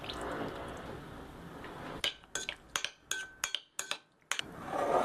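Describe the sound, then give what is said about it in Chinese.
Knife cutting chicken while dinner is prepared: a quick, uneven run of sharp, clicky chops after a couple of seconds of steady soft hiss, fairly quiet overall. “我想到了，先切点鸡肉”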